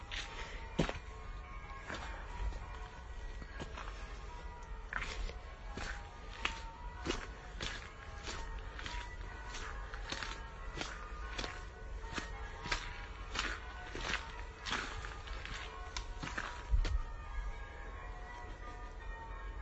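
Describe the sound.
Footsteps of a person walking on Christmas Eve: a long, even series of many soft steps at a steady pace, faint and with no talk.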